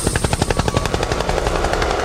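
Helicopter rotor effect in a live DJ show recording, a loud rapid thumping beat that holds steady throughout over a continuous high hum.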